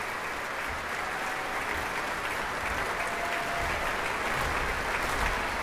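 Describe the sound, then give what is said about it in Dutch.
Audience applause for an encore at the Proms in the Royal Albert Hall: a dense, even wash of many hands clapping, steady in level and unbroken for several seconds. “En het promgeklap voor de encore, voor de toegift.”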